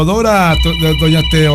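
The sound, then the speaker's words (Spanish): A telephone rings with a loud, steady electronic ringtone of a few repeated tonal notes, broken by brief gaps. “Permítame un momentito, por favorcito, quien me está llamando, un momento, por favor, en la línea telefónica.”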